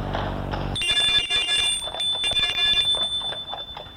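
A doorbell is rung at an old woman's house in a village, a sharp, high electronic ringing that cuts in abruptly after a brief low opening and holds steady with a fluttering, buzzy edge for about three seconds.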